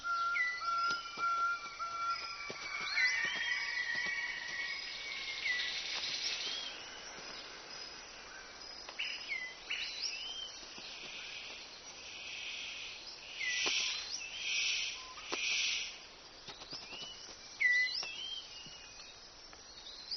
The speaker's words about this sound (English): The superb bird of paradise calls to attract a female.